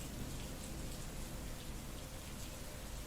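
Steady rain streams down a glass window pane, a dense, even hiss with a low rumbling undertone that continues unbroken through the whole clip, with no voices.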